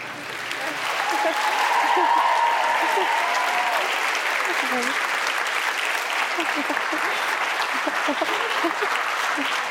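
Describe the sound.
An audience applauds to welcome guests at a live cooking talk in San Francisco, a dense, steady clapping that swells in the first second and then holds loud and even.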